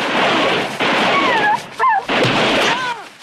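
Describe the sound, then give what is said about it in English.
Gunfire erupts in a night shootout in the woods where Doberman dogs were set loose: heavy noisy blasts with long roaring tails, separated by short gaps, with thin whining tones between them. “Orville gets shot. The others open fire.”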